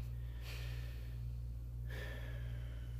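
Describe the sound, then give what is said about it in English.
A person takes a slow, deep breath as part of a guided breathing exercise: a soft, airy inhale that flows into a longer exhale over a steady low hum. “So go ahead and take a deep breath. I'll do the same.”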